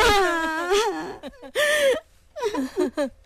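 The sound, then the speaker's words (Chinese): People wail and cry in a dramatized scene about a mourning mother and her daughter: loud, sobbing bursts with a wavering, quavering pitch, broken by short gaps. “你们到底是在哭什么呀？”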